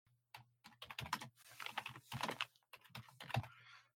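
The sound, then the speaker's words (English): Typing on a computer keyboard while notes are written down: many rapid, uneven keystrokes come in quick bursts with short pauses between them, over a faint low hum. “Let's see. I'm just writing this down.”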